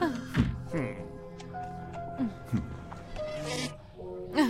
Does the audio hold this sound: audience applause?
no